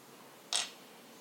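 A brief bright pop and hiss as a vintage 1980 bottle is cracked open, one short burst standing out over a low, steady background hiss.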